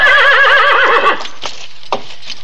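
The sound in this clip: A horse whinnies loudly for about a second with a wavering, quivering tone, followed by a few softer knocks. The horse is an ornery old saddle-worn mount out West.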